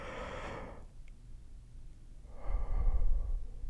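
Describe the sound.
One deep breath taken during a calming breathing exercise for anxiety: a soft, airy inhale, a short quiet pause, then a longer, louder breathy exhale, with no talking.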